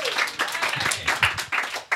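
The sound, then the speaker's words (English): An audience at a live debate event cheers and claps on request, a brief burst of mixed clapping and voices lasting about two seconds with a few louder peaks. “When I'm right, I want you guys to cheer for me. Go ahead. Give that a shot right now.”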